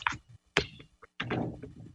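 A basketball free-throw bank shot clanks and rattles out of the rim: a few sharp knocks and thuds separated by short gaps, ending in a busier cluster of rattling contact.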